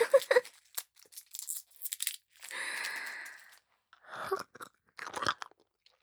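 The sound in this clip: Someone eats a hard candy, making faint, irregular crunching and crinkling bursts with one longer rustling stretch in the middle, and no talk.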